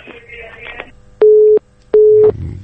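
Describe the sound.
Telephone busy tone after a caller's line disconnected: two steady, mid-pitched beeps of equal length separated by a short gap, loud and clean, following a faint, muffled stretch of line noise.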